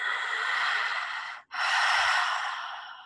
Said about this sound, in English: Can extend it longer if you like, or get it quick. Inhale.